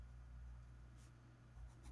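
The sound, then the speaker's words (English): Pen writing on paper: very faint scratchy strokes in a few short bursts over a low, steady hum. “So, sorry, I was writing again.”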